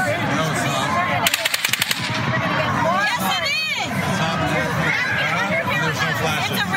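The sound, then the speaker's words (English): Real gunfire during the mass shooting in Las Vegas: a rapid burst of many sharp, cracking shots fires in quick succession over a noisy crowd. Voices and commotion continue underneath throughout. “It's not a real gun. That doesn't sound like a real gun. It is a real gun.”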